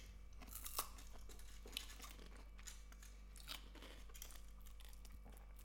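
Soft crunching as someone bites through a crispy hazelnut wafer treat with a thin wafer layer, a few faint crisp snaps and chewing noises over a steady low hum.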